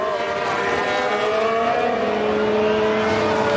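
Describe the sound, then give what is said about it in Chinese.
An Audi race car's engine drones during a motor race, a sustained high, buzzing whine with steady tonal layers that holds a constant loudness throughout, with no talk over it. “来加防着后面的奥迪赛车”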